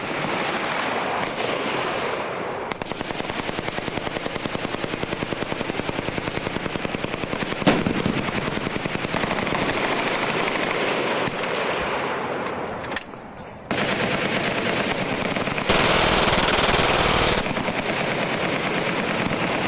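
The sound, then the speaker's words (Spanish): Rapid automatic gunfire as a gun empties two full magazines: loud, dense bursts of shots run almost continuously, break off briefly, then resume. “que nos pide, como Tom, que le retratemos mientras se deja dos cargadores enteros al más puro estilo Tomb Raider.”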